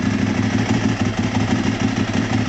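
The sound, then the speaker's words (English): A Ducati motorcycle with a dry clutch idles in a steady, rough, loud rumble with a fast, even pulse, without revving or voices. “that's a dry clutch. That's a duck. Tell me, that's got to be a Ducati. Yeah, for sure. Dry clutch. 100% Ducati.”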